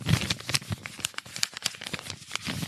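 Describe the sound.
A paper envelope is handled and opened with dense, continuous crinkling and crackling paper rustles at moderate loudness.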